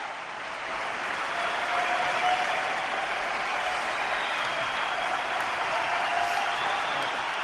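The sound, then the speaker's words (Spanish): Standing ovation from a packed arena crowd at the Martín Carpena: sustained, dense applause and crowd roar at a steady, loud level for the whole stretch, with no break in the clapping. “No le dejan hablar. Sigue ovacionando en pie todo el Carpena y no dejan hablar a Rafa.”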